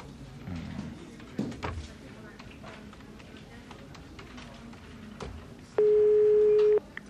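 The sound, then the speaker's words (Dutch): An office telephone is dialed, starting with a zero for an outside line. A few faint clicks and taps come first, then a loud, steady line tone holds for about a second. “eerst een 0 draaien om naar buiten te kunnen bellen”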